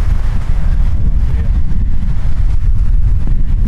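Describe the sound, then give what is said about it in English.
Wind blowing outdoors, a west-northwest wind picking up, buffets the microphone as a loud, steady, low-heavy roar of rushing air with no let-up and no talk. “Feel that wind picking up already.”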